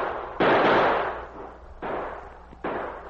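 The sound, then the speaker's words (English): Three sharp gunshots from outlaws in a gunfight on a snowy, tree-lined trail ring out at irregular intervals, each loud crack trailing off into a fading tail before the next. “The outlaws opened fire.”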